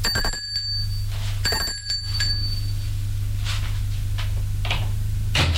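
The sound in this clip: A doorbell rings twice at an upstairs door: two bright, metallic ringing tones, each fading briefly, over a steady low hum.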